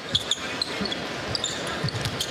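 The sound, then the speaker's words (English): A basketball is dribbled on a court, several sharp, regular bounces thudding over a steady background hiss. “George plays into White, dribbles to the right elbow, pull up 16-footer.”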